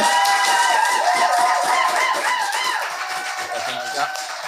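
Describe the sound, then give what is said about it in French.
An audience applauds and cheers as players are introduced and enter at a live game show, a dense, steady wash of clapping mixed with high whoops and shouts that holds loud for the whole stretch and eases slightly near the end. “je vous demanderai un tonnerre d'applaudissements, s'il vous plaît. Je vais vous les présenter un par un. Ils vont rentrer, on les applaudit, j'en représente un autre.”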